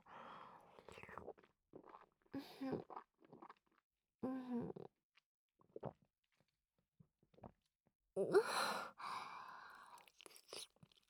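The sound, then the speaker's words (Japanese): Wet chewing and grinding in the mouth, with a few short bursts of mastication and soft breathy, whispery sounds between them, then a louder sustained stretch of chewing near the end. “お口の中で。いっぱい噛んで、すりつぶして。”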